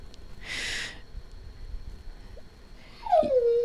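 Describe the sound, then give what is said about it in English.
A German Shepherd dog whimpering, faint: a short breathy snort-like burst early on, a quiet stretch, then a high whine sliding downward in pitch at the end. “That's my German Shepherd. That terrible sound you just heard.”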